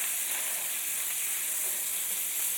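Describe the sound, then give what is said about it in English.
Chorizo sizzles and fries in a pan while it is broken up and browns. The frying makes a steady, continuous hiss at an even, moderate level, with no talk over it. “So breaking up that chorizo, and it's getting that nice reddish brown color.”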